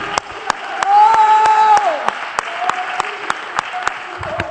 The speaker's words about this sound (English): Where you're at, I wish you would just clap your hands.